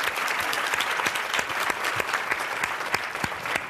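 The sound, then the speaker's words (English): An audience applauds to welcome a speaker who is introducing a panel. Steady, dense clapping with many sharp individual hand claps continues unbroken at an even level. “So now please put your hands together and welcome Ann Mary Coe”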